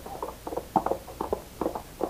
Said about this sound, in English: Come on, let's get a trot going.